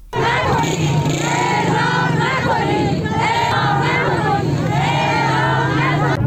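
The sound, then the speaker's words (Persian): Protesting families chant an anti-execution slogan outside the judiciary's public relations office. Many voices chant loudly and continuously in a rhythmic, repeated pattern throughout. “این خانواده‌ها که در برابر دفتر ارتباطات مردمی قوه قضاییه تجمع کرده بودند، نوشته‌هایی از قبیل نه به اعدام و پدرم را اعدام نکنید در دست داشته و شعار اعدام نکنید سر دادند.”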